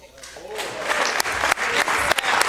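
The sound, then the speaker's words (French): A crowd gives an ovation of applause as a sound effect. The dense clapping swells steadily for a couple of seconds, with a few sharper claps standing out. “Oh, j'ai laissé une petite ovation.”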